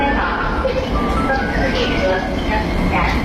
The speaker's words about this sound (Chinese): 哎，宝贝儿，你看地铁来了，咱们一起排队上车喽。